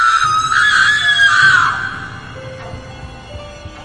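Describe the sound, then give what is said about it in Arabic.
A woman's loud, shrill scream, sustained for about two seconds and sliding down in pitch before trailing off into quieter noise. “فجأة سمعت صوت صرخة بصوت أنثوي.”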